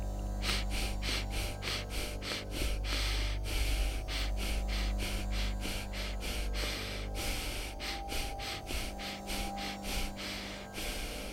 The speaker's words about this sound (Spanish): es una respiración que consta de cuatro inhalaciones y exhalaciones cortas y una quinta inhalación y exhalación más larga, generando un ciclo que puede realizarse así.